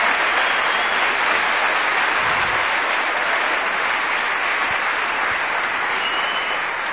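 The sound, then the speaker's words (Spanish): A church audience applauds during a sermon, a dense, steady wash of clapping that holds at an even, fairly loud level for the whole stretch without letting up. “Un aplauso, hermano.”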